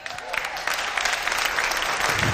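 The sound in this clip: Clapping from an audience during a sermon, many hands beating together in a thick, continuous patter that builds slightly at the start and then holds at a lively, even level.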